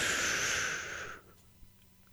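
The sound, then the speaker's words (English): A deep breath drawn in, a long airy rush that holds steady for about a second and then cuts off, leaving near silence. “On the count of three, I want you to take the deepest breath you can. One, two, three. Breathe in.”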